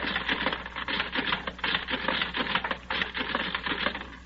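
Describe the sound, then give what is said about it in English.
Punch cards running through a card-matching classifying machine give a dense, rapid mechanical clatter. The rattling ticks run continuously and steadily at moderate loudness, with no voices. “Then I take all the cards of the men I have and run them through the machine like this.”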